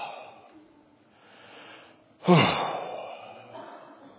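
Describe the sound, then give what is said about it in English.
A voice imitating a groan: after a few soft breaths, a sudden low, breathy vocal groan bursts out, then trails off into a long, fading exhale. “it's groaning. It's under the pressure.”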